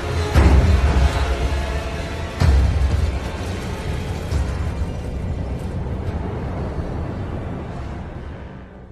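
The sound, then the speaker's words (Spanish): A bomb explodes inside a church during mass. Two loud booms land about two seconds apart, then a long, gradually fading rumble follows. “Una bomba estalla durante la celebración de una misa y hiere a varios fieles.”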